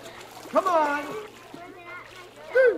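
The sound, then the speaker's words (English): Splashing water as a child in a beginner swimming class jumps off a diving board into a pool, with children's voices calling out over the splash. “The final part of the final lesson, Mr. Switzer took his beginning class to the diving board for them to jump and swim to the ladder.”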